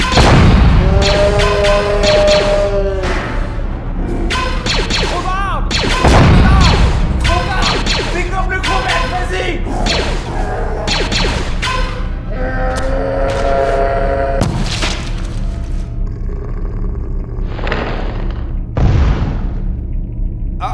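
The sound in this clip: Video game gunfire during a tense firefight: many sharp, booming shots and heavy thuds that come in rapid clusters over a dense, continuous bed of game sound.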